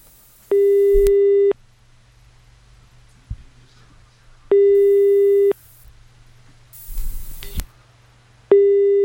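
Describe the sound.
A telephone busy tone plays on an unanswered call: two loud, steady one-second beeps separated by long gaps, a third cut off at the end, with a brief noisy rustle between them.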